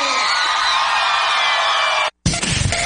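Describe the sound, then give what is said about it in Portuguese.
A crowd cheers and shouts on cue, a dense, loud wall of whoops and roars that holds steady for about two seconds and then cuts off abruptly. “Vamos ver o grito da galera então!”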